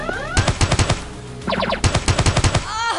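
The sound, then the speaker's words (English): Mini pistol gunfire in a video game: two rapid volleys of sharp, loud shots, about six in the first and eight or nine in the second, separated by a short pause filled with brief electronic chirps. “Let's use mini pistol.”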